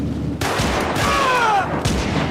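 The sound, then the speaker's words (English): 9mm pistol gunshots fired aboard a moving plane: a few sharp, loud cracks over a constant roar, with a thin, descending whine between them. “Say that again to my 9mm. We need to take him together. Fire at the same time.”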